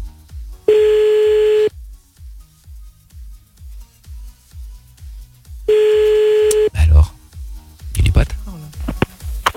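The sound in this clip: Ringback tone of a telephone call being placed during a late-night radio show: two long, steady tone bursts about five seconds apart over a low rhythmic beat, followed by people talking.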